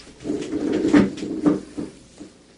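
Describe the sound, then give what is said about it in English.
A door opens from a stable into a doctor's office as a radio drama effect: a few muffled wooden knocks and rattles, the two strongest close together in the middle, with no voices. “Dave hurried through a door that opened from the stable directly into the doctor's office.”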